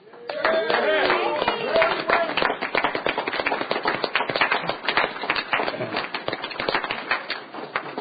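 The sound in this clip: Warm applause fills a state Senate chamber in Laramie County as senators welcome visiting fifth graders from Prairie Wind Elementary School. Dense, rapid clapping holds steady for the whole stretch, with some voices mixed in.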